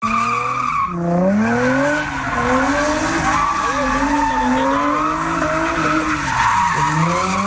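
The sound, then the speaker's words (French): Tires squeal and skid almost without pause as cars perform illegal street-racing maneuvers at a gathering of young drivers in Trois-Rivières. The loud, wavering screech slides up and down in pitch, with brief dips near the start and end. “Ce que vous entendez maintenant, c'est pas tiré d'un film d'action, c'est la vraie vie. Ce que vous entendez, c'est ça a été pris la fin de semaine dernière, samedi dernier. Les policiers de Trois-Rivières ont empêché un rassemblement de 300 jeunes qui souhaitaient faire des manœuvres ou des courses automobiles”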